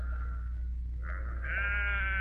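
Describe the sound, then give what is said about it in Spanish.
Newborn lambs bleat in a barn, giving high, wavering cries. A short bleat is followed by a longer sustained one over a steady low hum. “Caminé hacia el granero, sin pensar a dónde iba. Allí descansé, mirando los corderos recién nacidos.”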